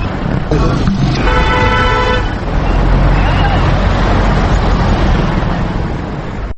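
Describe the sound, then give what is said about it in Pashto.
A busy vehicle depot in an old city bazaar in Kabul: crowd chatter and dense traffic rumble fill the whole stretch, with a car horn tooting repeatedly early on. “سر چوک ته سیرمه د لوګر په لور د موټرو اډو ته ځو چې د خلکو ګڼه ګوڼه شور او زوږ اورېدل کېږي.”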